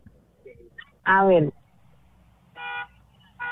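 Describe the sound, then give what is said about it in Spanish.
Car horn honking in a few short, bright blasts. Each is a flat, steady tone with quiet gaps between them. “Tócame el pito ahí, a ver.”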